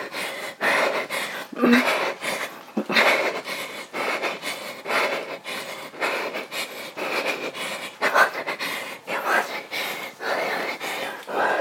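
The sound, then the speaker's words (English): Heavy, rhythmic panting runs through a timed interval workout. Many loud, ragged breaths follow one another in quick succession with short gaps between them throughout. “Just the soundtrack of breath.”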